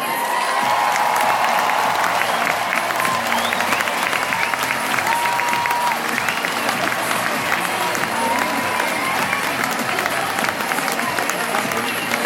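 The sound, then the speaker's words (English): Crowd applause and cheering welcoming British tennis player Andy Murray onto court, a loud, dense and continuous roar of clapping that holds steady throughout. “from Great Britain, please welcome Andy Murray.”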